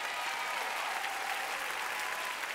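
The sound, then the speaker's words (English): An audience claps hands during a church sermon, producing a dense, even wash of applause that fills the whole clip without a break. “Clap your hands like you're coming back.”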